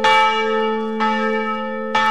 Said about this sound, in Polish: Srebrne dzwony biją na powitanie swojego najmłodszego brata.